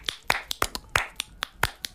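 Crisp finger snaps come in a quick, steady run, made by a flamenco guitarist to calm his nerves before playing. The snaps are sharp and distinct, and no voices are heard.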